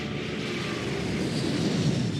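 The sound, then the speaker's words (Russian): An airplane takes off with a loud, continuous engine roar. The dense, rumbling wash of noise holds steady throughout, and no voices are heard. “Но ее слова заглушил рев взлетающего самолета.”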